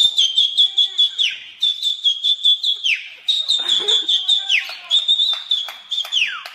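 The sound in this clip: A loud, high-pitched whistle warbles in rapid, steady pulses, broken by several short downward glides, alone with no talk.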